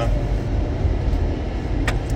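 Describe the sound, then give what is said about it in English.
A car driving gives a steady, loud low rumble of road and engine noise that holds evenly throughout, with no talk. “I'm going to drive to the P.O. Box.”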